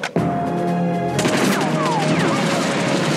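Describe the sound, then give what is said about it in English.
Russian guards in a film scene open fire in a loud, dense barrage of rapid gunshots that runs on without a break. “we see plenty of inept Russian guards that immediately start shooting as soon as they have their eyes on Bond.”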